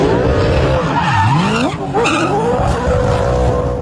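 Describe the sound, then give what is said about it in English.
A Supercars race car celebrates a win at the Townsville 500 with loud, continuous tyre squeal and a roaring engine. The revs swoop down and back up as the car skids and spins. “that's the sound of Supercars driver Brody Kostecki celebrating after taking out this year's Townsville NTI 500”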